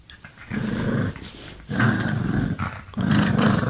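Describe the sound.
Low, rumbling growls from a dog lying on her back with paws in the air, coming in three sustained stretches separated by short pauses.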